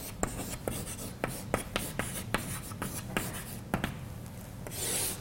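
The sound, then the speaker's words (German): Writing on a board makes many faint, short scratchy strokes in an uneven rhythm, with soft rubbing between them and no talk. “Schreib es mal an.”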